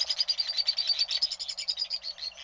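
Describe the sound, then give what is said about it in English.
A white-throated swift calling, a rapid high-pitched chittering trill that runs unbroken for the whole stretch, thin and buzzy with a fast pulsing rhythm, heard alone. “the white-throated swift is indeed swift, among the fastest of all birds”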